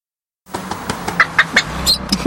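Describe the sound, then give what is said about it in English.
Animal calls in a road safety advert: a few short, high chirping squeaks and cries ring out over a steady low background rumble. “Animals can't speak to drivers, but if they could, they would be asking us, telling us by the sounds of it, to put our litter and fruit waste in the bin.”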